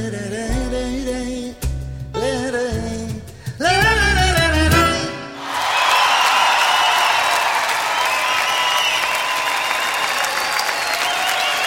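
Audience ovation at a live concert in a large theatre in Buenos Aires: music cuts off and a dense, loud wash of clapping takes over, holding steady for about six seconds.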